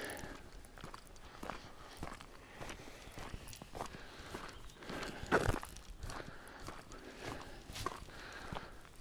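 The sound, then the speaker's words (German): Footsteps of someone walking outdoors while geocaching make a steady, regular rhythm of many faint steps, heard alone without talk. “Dann laufen wir mal weiter zum nächsten.”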